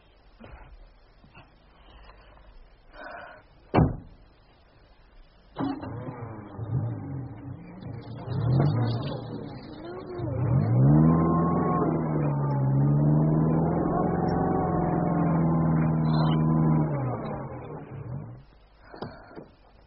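A stuck car's engine starts and revs after the car is pushed, its drone wavering up and down in pitch, growing louder and steadier in the second half, then cutting off.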